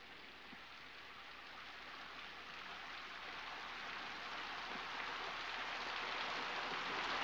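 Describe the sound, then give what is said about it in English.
Rain begins falling on an outdoor path, a dense steady hiss of drops that grows gradually louder as the shower turns into a downpour. “As Selena lifts her chin, raindrops begin to fall.”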